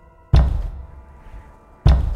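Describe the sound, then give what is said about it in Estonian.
A massive wooden door, large enough for a truck to pass through, slams shut in a railway station with two heavy, booming thuds about one and a half seconds apart, each deep and loud with a rumbling decay. “massiivne puituks, kust võinuks veoauto läbi mahtuda, räntsatas kinni, lüües Jaani”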